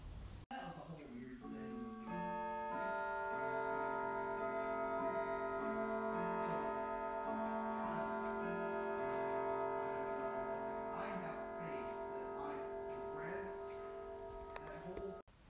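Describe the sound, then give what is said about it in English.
Grandfather clock in a home foyer chiming, with steady bell-like tones that ring and overlap for about fifteen seconds and fade at the end. “That was the sound of our grandfather clock. It's in our foyer, so it's a bit echoey”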